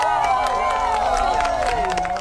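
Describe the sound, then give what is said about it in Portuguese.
A crowd in Iceland applauds and cheers as a total solar eclipse brings darkness. Steady clapping runs throughout, with many voices calling and whooping over it. “Na Islândia, a escuridão foi recebida com aplausos.”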